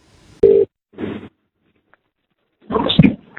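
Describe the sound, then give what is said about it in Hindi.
A telephone rings as a radio caller is put through: two short electronic ring bursts separated by silence, followed after a pause by a voice answering. “चलिए दोस्तों, अब रुख करते हैं हमारे चौथे collar की तरफ। Ton ton ton ton.”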